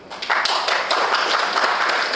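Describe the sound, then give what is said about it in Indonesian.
Audience clapping after being asked to applaud if they like Manchester United: a dense, steady patter of many hands that starts abruptly and keeps a fairly even level to the end. “Coba beri tepuk tangan kalau yang suka MU.”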